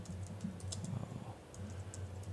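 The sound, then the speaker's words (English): Typing on a computer keyboard: a quick, irregular run of soft key clicks, faint and alone over a low steady hum. “let me fix that. I cannot type and chew bubble gum at the same time.”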